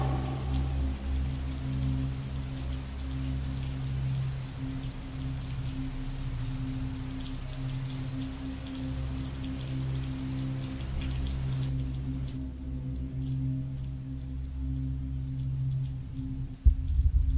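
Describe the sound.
Heavy rain pours down in a dense, steady hiss that holds without pause, with a low thump near the end.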